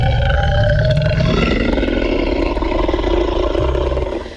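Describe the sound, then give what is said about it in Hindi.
A dinosaur roar sound effect rumbles loud and deep, a long sustained growling bellow that fills the whole clip on its own with no voices. “इस वक्त अगर escape room के बारे में बात की जाए तो आप फंसे हुए हैं डायनासोर वर्ल्ड में। जी हाँ, डायनासोर वर्ल्ड में।”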